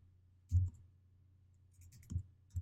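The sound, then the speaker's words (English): Keystrokes on a computer keyboard while code is typed, a few sparse, faint clicks with long gaps between them over quiet background hum. “So I'll begin typing this line of code, console”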